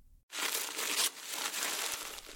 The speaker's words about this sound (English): Why don't you open your present?